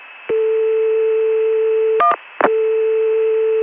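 A steady telephone dial tone on a Contelnet line is cut by a short burst of DTMF dialing tones, followed by a click and the return of the continuous dial tone.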